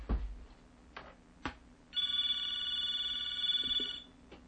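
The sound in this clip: A telephone rings with an incoming call: one sustained electronic trill lasting about two seconds in the middle, preceded by a few soft clicks and knocks.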